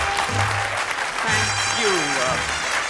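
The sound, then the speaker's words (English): Studio audience applause welcomes a show's host, a steady wash of clapping that runs throughout with a voice speaking over it. “Thank you for that rousing welcome, which belies the small but perfectly formed nature of our audience today.”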